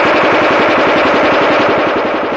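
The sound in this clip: Weapon fire in a space battle, a radio drama effect: a rapid, evenly spaced stream of loud pulsing bursts, hard and continuous like an automatic weapon, holding steady for the whole stretch.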